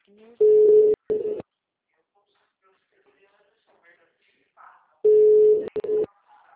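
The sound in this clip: Telephone busy signal on a call that is not answered: a steady low tone that sounds in two bursts, each broken by a brief gap, separated by a long silence.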